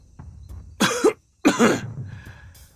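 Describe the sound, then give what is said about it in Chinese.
A man coughs twice at the door of a study late at night: two short, harsh bursts close together, the second slightly longer and trailing off, with no speech. “他咳嗽了两声，绷着脸说”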